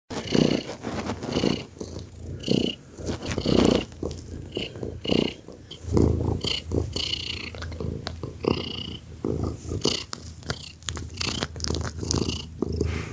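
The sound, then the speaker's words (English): A cat purring hard with a grunting, rasping quality, rhythmic pulses repeating steadily through the whole stretch at moderate loudness. “And when you hear him purring, somehow his personality comes through with his purr. Because it's more of a grunting. Because he purred hard.”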